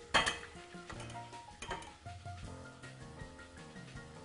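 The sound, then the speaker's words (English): A metal slotted spoon scrapes and clinks against a bowl while lifting freshly deep-fried food from hot oil into a paper-towel-lined bowl. Several sharp clinks come first, then lighter, scattered clatter. “I'm using a, slot, a slotted spoon to put these inside of our bowl with a paper towel.”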